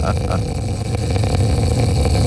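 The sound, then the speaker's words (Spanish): A voice imitates loud snoring, likened to a walrus: a rough, continuous, rumbling snort held steadily throughout, loud and gravelly. “Yo tuve una novia que tenía una voz angelical. ¿Que roncaba así? Pero que roncaba así. Como una morsa.”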